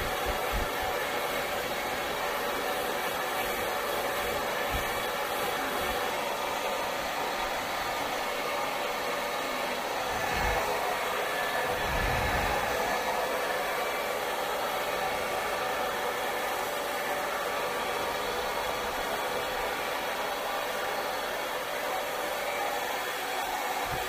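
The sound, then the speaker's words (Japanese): A hair dryer blows steadily as it dries hair, a continuous loud whirring rush that holds an even level from start to finish with no talking. “しっかり乾かさないとね。あと、自然乾燥だと、髪が傷んじゃうんだよ。今日は、しっかり乾かしてあげる。”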